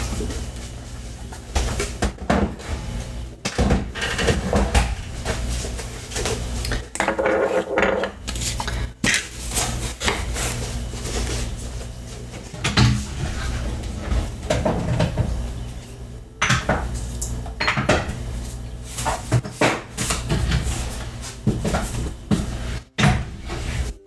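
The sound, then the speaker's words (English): Kitchen clatter as used cooking ingredients are put away in cupboards: many knocks of containers and dishes and the thud of cupboard doors open and shut, loud and irregular throughout, with no talking. “But first, I'm going to put away all the ingredients I just used because I love having a clean counter.”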